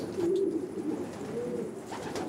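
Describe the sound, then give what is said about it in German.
Racing pigeons coo softly in a pigeon loft, a few low, rolling coos over steady background noise, with no talk. “Juan Ramón sucht nur die weiblichen Jungtiere aus. Seiner Erfahrung nach fliegen diese konzentrierter zurück zum Taubenschlag.”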